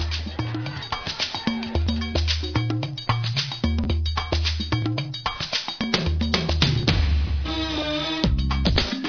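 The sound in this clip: Benin-born music rooted in voodoo traditions and blended with Atlantic rhythms plays with a steady, driving percussive beat, bright clinking hits and a pulsing low bass line under layered melody.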